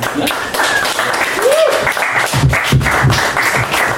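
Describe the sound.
Audience applause and clapping as a comedian takes the stage at a live comedy show. The dense, loud roar of hands stays steady for about four seconds, with voices mixed in.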